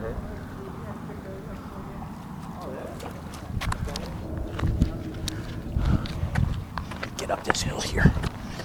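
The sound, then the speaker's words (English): Footsteps of a man walking outdoors on rocky ground near a fishing spot: irregular, scattered steps over a steady background noise. “The reason why I got all silent there is because I was walking towards a guy who from the back looked like a friend of mine.”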